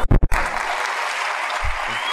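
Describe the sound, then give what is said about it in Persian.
An audience claps at a call for applause, a dense, even patter that carries through to the end. A few brief, louder bursts come first. “بخوا برای من دست بزن.”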